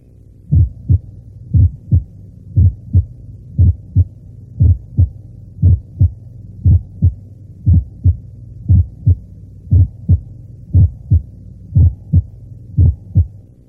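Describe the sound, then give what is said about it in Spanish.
Auscultated heart sounds in complete right bundle branch block: a steady run of many dull, low thuds, with the first heart sound of each beat audibly split into two closely spaced components. “Oigamos ahora el desdoblamiento del primer ruido en el bloqueo completo de rama derecha, tal como ocurre en la realidad.”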